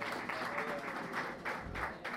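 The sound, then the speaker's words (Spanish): Faint audience applause in a café, soft uneven bursts of clapping that swell and ease a few times. “Un fuerte aplauso para ellos, lo sé.”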